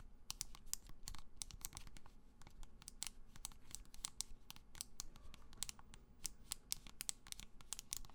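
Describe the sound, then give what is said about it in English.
Keyboard key switches being pressed in quick succession, a dense, steady run of many soft, crisp clicks with no talking. “the switches that are inside. They're the things that you press down on, and they help activate the key, as far as I understand it.”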